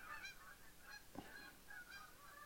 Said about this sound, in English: No extra charge for the geese that just flew over.